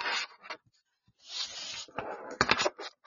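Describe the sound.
Chakra cards being shuffled, heard as a few quick papery bursts of rustling and riffling separated by short pauses, soft and alone without talk.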